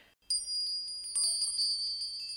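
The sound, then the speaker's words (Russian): Valdai bells, small souvenir bells, jingle with quiet, bright, high-pitched ringing. After a short silence, a few soft strikes set off overlapping tones that shimmer and sustain throughout, with no voices. “Валдайские колокольцы. Да-да, колокольцы.”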